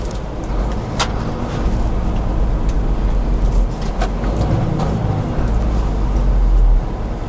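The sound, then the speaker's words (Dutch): A new Scania 560 six-cylinder truck driving on the road, heard as a loud, steady low engine drone with road rumble that holds constant from start to finish. “Ja, en we zijn dus onderweg met de nieuwe Scania 560. En dat is een truck die qua vermogen niet onderdoet voor een V8.”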